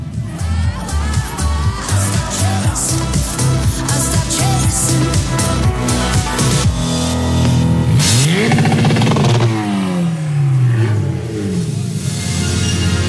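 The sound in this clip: A motorcycle engine holds against its rev limiter as the rider enters the infield after a competition, giving a loud, rapid stuttering drone, then sweeping revs that climb and drop.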